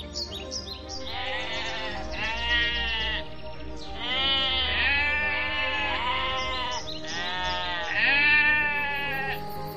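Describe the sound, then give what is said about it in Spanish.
Sheep bleating in a meadow, a flock calling in several loud, wavering bleats that overlap and follow one another with short gaps. “muy cerca de donde él estaba, en una pequeña pradera, había un hombre junto a un rebaño de ovejas”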